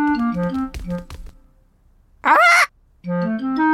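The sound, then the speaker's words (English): A pet parrot squawks in one harsh, raspy burst lasting under half a second, set between stretches of bright, stepping melodic music. “this is our pet parrot.”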